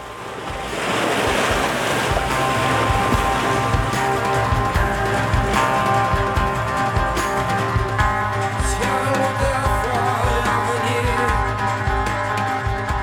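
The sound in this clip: Waves break on Corbière beach in a continuous loud roar of surf, with wind buffeting mixed in and no clear gaps between the breakers.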